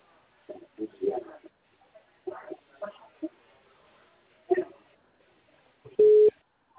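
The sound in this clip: Telephone busy tone after the other caller hangs up: a single steady, loud electronic beep near the end, following scattered bursts of people talking.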